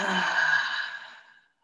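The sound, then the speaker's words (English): A loud exhale through the mouth during a group pranayama breathing exercise, heard as a single breathy whoosh lasting about one and a half seconds that gradually fades to silence. “And taking a big collective inhale together and exhaling loudly through the mouth.”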